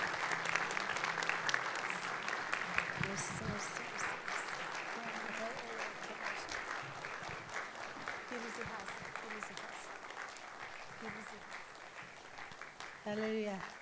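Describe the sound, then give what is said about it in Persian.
Congregation clapping in applause at a church worship service: a sustained, fairly faint wash of hand claps that continues throughout, with voices heard over it. “اگر باور دارید این خدای عشق و محبت از من و شما میگذره و اجازه میده، هر چقدر او رو دوست دارید دست بزنید تا گروه ورچی بیان بالا.”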